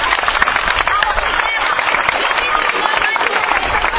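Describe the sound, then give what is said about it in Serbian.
Big applause for the president of a church council at a church quiz event: thick, crackling clapping stays loud and continuous throughout. “predsjednik crkvene opštine Cetinske, iza njega je veliki aplauz.”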